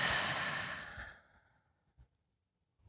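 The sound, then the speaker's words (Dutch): A deep breath is let out through the mouth during a guided breathing exercise: a loud, airy rush that fades over about a second, then a few faint, soft breath sounds. “En adem dan even diep in door je neus. En uit door je mond.”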